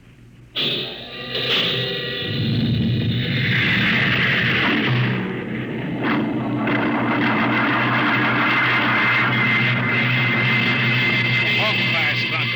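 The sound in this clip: Rocket ship jets firing for launch, jets one and four: a sudden loud blast onset opens into a sustained, heavy roaring rumble that continues to the end.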